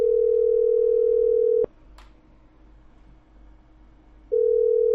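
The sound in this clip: A steady telephone dial tone hums, then is cut off by a sharp click. A quiet gap of a few seconds follows before the same continuous tone returns.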